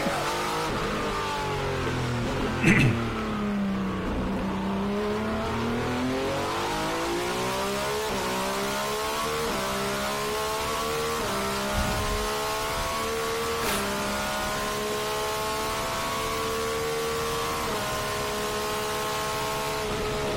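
A race car engine screams at high revs near 9,000 RPM against its rev limiter, droning loudly and continuously; its pitch dips early on, then climbs gradually for the rest of the run.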